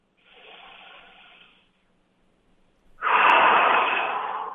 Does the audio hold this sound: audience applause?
no